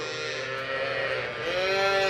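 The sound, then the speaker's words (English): Cattle mooing on a farm raising cattle for slaughter in southern Israel: a long, sustained, tonal low moo that holds steady throughout and swells slightly louder toward the end. “Amnon Aharon raises cattle for slaughter at his farm in southern Israel”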